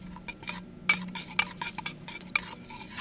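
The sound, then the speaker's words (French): Coffee grounds stirred into water: a utensil clinks lightly and irregularly against the vessel, with soft scraping between the taps. The sound is quiet, with no voices. “L'idée, c'est de mélanger le café et l'eau.”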